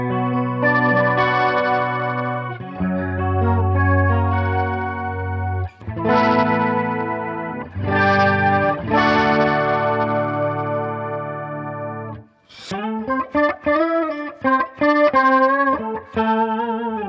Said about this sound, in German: Genau, und jetzt mache ich das Tiefe mal weg. Genau, mach das Tiefe mal weg, dann kriegt man nämlich so einen 12-String-Sound so ein bisschen.